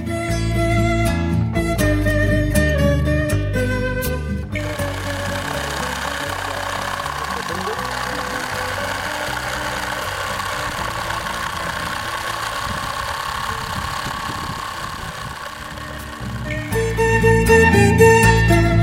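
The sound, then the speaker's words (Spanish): Small homemade electricity generator built from two tiny generators, an invention from the municipality of Jambaló, runs with a steady, rough engine-like hum and vibration, framed by music at the start and end. “El generador de energía. Un invento de Emerson Ramos del municipio de Jambaló.”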